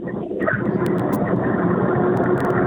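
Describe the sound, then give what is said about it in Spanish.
A car engine drones steadily while the vehicle is driven through a mountain range, heard over a phone call as a muffled, continuous low hum with a few faint clicks. “Es que vas manejando. Sí, estoy por aquí por la cordillera.”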